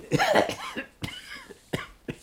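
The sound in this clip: Coughing: a harsh, rasping burst of coughs at the start, followed by a few shorter, sharp coughs spaced out with brief quiet gaps between them.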